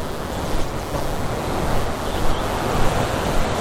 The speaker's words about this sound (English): I mean, there's three waterfalls, they're only little, but they're great foreground.